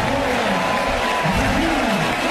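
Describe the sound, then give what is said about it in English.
Stadium crowd applauding at a Clemson college football game as a new quarterback takes the field, a loud, continuous roar of clapping and cheering with a faint voice underneath. “Reynolds gets a nice round of applause from the faithful that are here.”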